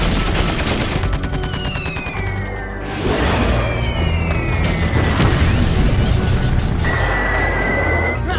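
Gunfire and explosions in a battle, with dense rapid bursts and heavy booms throughout. Several high, descending whistling tones streak across the barrage, which stays loud and continuous from start to finish.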